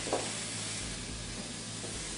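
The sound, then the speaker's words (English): Food sizzles in a pan with a little olive oil, a steady, faint frying hiss that runs on without pause and with no voices. “We'll grab the pan. And everything goes into the pan. And a little olive oil.”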